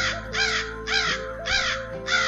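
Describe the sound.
Crows caw in four harsh, rasping bursts spaced evenly over about two seconds, each call loud and roughly equal in strength.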